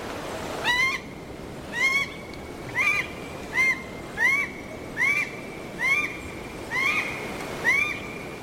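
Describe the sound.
A red goshawk calls in a series of nine sharp, high, slurred screeching notes. They come at a fairly steady rhythm of about one per second, each call standing out clearly.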